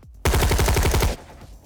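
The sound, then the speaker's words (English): A rifle fires on full automatic inside a warehouse: a single rapid burst of many evenly spaced, loud, sharp shots lasting about a second, then a short fading tail. “He loaded a full clip into his rifle and walked down the steel steps that linked the gantry to the floor of the warehouse, firing his gun at full burst.”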